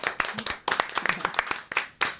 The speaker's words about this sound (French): Aya, sous vos applaudissements également.